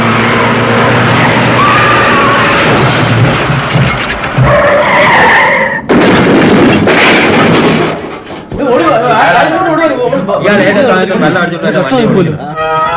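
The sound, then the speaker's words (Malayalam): Tyres screech as a car skids at about 110 km/h on the busiest road in a city. The sustained skid is loud and harsh, with roaring engine noise and a brief break near the middle. “നഗരത്തിലെ ഏറ്റവും തിരക്കേറിയ റോഡിലൂടെ ഇയാൾ 110 kilometre വേഗത്തിൽ കാറോടിക്കാൻ ശ്രമിച്ചു.”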